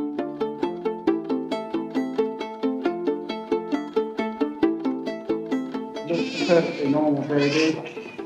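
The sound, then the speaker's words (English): A newborn baby gives a couple of short, loud wails near the end, over steady rhythmic plucked music notes that run throughout. “A good, healthy cry. Plenty of fat underneath the skin. Good, mature baby.”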